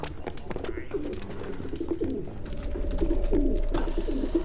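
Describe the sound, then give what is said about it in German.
Wood pigeons cooing, a flock of over a hundred perched on rods and slats, giving soft, low, overlapping coos in a steady murmur that grows a little louder toward the end. “Das ist ja mehr als 100 Waldtauben auf den Stäben und Latten. Die gehören alle mir.”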